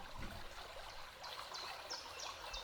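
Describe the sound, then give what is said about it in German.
Gently splashing flowing water, a soft continuous trickle at low volume, with faint high chirps repeating over it. “Du spürst dieses Fließen und hörst es. Dieses sanfte Plätschern.”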